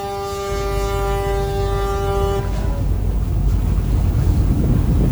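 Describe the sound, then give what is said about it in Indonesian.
Ship engine roaring aboard a 112-passenger boat on a morning island crossing: a steady low rumble with a sustained tonal whine in the first half, then a rougher, broader wash of engine and wind noise. “Deru mesin kapal menghiasi perjalanan pagi itu ke pulau dengan waktu tempuh 30 hingga 45 menit.”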